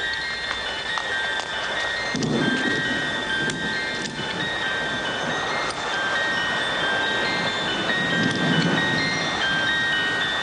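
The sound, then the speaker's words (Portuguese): A thunderstorm with a steady hiss of heavy rain and two deep, rolling thunder rumbles swelling beneath it, with no talking. “A tempestade.”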